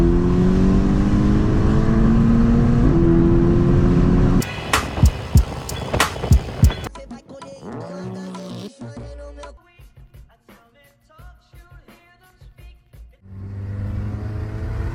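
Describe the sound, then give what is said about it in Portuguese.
A Volkswagen car accelerates hard while racing a BMW, its engine roaring loudly with a rising tone for about four seconds. The sound then breaks into choppy, quieter bursts of engine noise and clatter. “Fica pra trás, BMW! Tomando pau de Volks! Pisa, mãe! Pisa tu! Não tira o pé do acelerador, mãe!”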